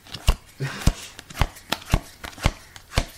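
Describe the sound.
Business cards being handled: a series of crisp, dry taps and flicks recurring about every half second, fairly faint, with softer rustles between them.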